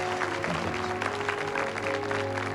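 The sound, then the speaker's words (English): Delegates at a formal meeting clap in a steady, dense applause lasting throughout, with sustained tones running underneath the clapping. “While the delegates clap, Han gets up”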